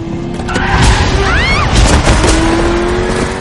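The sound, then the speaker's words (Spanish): A car swerves off the road onto a dirt track between cornfields: a loud, rough engine roar with rumbling tire and gravel noise that holds steady throughout. “Cortés sale de la carretera y conduce por un camino entre maízales, sonriente.”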